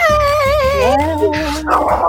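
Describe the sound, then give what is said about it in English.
A hyper dog gives high, wavering whines and yips in a rapid run of vocal cries, loud and alone, with a couple of sharper yelps near the end. “Excuse my dog. My dog is a little hyper at the moment, so you might hear some barking in the background.”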